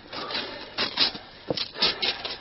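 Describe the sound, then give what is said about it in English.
A blade cuts through the canvas of a knotted bag of clothes, making rough rasping tears in several uneven bursts with brief gaps between them. “Can't undo the knot. Mind your hands, I'll cut through the canvas.”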